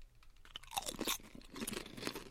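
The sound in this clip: Someone crunches and chews sweet and salty chips, producing many crisp, brittle crunches in an irregular rhythm at a faint level, with no talking.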